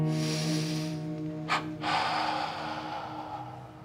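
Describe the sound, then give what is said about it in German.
One deep, breathy inhale by a person beginning meditation with eyes closed. The short airy intake stands out briefly against a steady, sustained tonal background, with no talk. “Ich schließe meine Augen, atme ein.”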